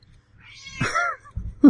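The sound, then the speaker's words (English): A cat gives one clear, drawn-out meow that rises and then falls in pitch, heard alone against near silence. “That's my cat.”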